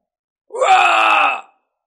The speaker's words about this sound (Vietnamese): Một tiếng hét thảm vang lên